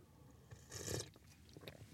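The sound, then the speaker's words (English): A sip of coffee: one brief, soft slurping burst, then a few faint mouth clicks. There is no talk. “Let me grab a sip of coffee.”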